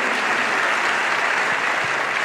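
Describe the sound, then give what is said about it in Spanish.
An audience applauds during a church service, a steady, dense wash of clapping that holds at an even, fairly loud level for the whole stretch, with no voices standing out. “¿Puedes aplaudir al Señor?”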